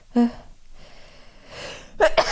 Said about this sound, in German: Oh, ich muss, glaube ich, niesen.